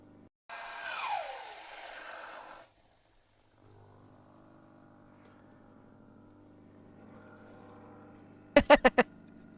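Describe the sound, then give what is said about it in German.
A hair dryer running under water: a loud whine with a falling pitch comes first. A pause follows, then a low, steady motor hum, and a brief cluster of sharp knocks near the end. “Guck mal, der Föhn läuft sogar noch unter Wasser weiter.”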